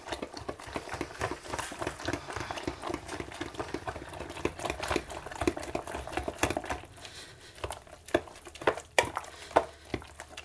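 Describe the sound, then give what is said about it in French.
A crushed, flour-like ingredient is mixed by hand into the rest of a cooking mixture. Many soft, irregular scraping and squishing strokes form a steady, busy texture, with no talk. “Je l'écrase bien pour qu'il puisse bien se mélanger après avec le reste. En fait, il va devenir un peu farine, quoi, en fait. Et là, je mélange.”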